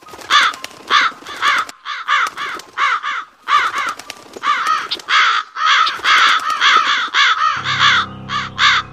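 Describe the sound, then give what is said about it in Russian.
A flock of crows caws harshly as the birds burst out of a forest, sending many loud, rasping calls in rapid, overlapping bursts with only brief gaps between them. “Полсотни птиц тут же покинули свои насиженные места и с противным гарканьем выпорхнули из леса.”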